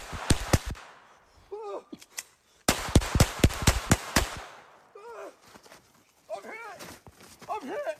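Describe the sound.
Gunshots from a played police acorn-drill video ring out in two bursts of sharp, loud cracks fired in quick succession, with shouting voices in the gaps between.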